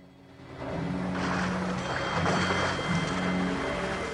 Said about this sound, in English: The van pulls into a dark alleyway and splashes through a puddle of water.